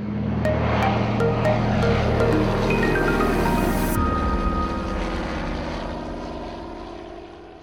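Propeller engines of a Canso aircraft drone loudly and steadily with a throbbing roar, the sound easing off gradually toward the end.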